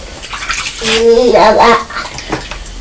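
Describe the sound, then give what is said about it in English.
Water runs over a child's hands as they are rinsed, a steady splashing rush that swells in the middle, with a voice heard briefly over it. “We need to wash your hands in a minute, don't we? Yeah. That's right, you rinse your hands.”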